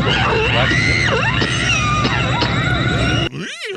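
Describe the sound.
A woman's scream from a horror film stabbing scene, with echo: a loud, sustained, wavering high-pitched cry for about three seconds, followed by a shorter rising-and-falling shriek.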